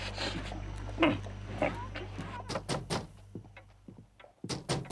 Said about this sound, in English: The doctor answers their knock.